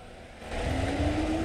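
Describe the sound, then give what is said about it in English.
A police car parked outside a block of council flats pulls away at night: a low engine rumble swells after a brief moment, then holds at a steady, moderate level. “At night, a police car parked outside a block of council flats pulls away.”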